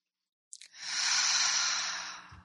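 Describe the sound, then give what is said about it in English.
One long, deep breath during a guided spiritual breathing meditation: a soft airy hiss that swells after a small click and lasts under two seconds, then fades, alone against silence. “So we take these breaths, these holy breaths, invoking the Holy Spirit.”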